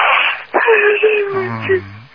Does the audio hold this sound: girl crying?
yes